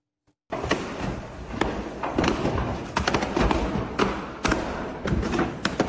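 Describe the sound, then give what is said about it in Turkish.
Bangs from explosions during a furniture shop fire in Buca, Izmir: many sharp thuds at irregular intervals over a continuous rushing, crackling roar, fairly faint overall. “Önce alevler, ardından patlama sesleri.”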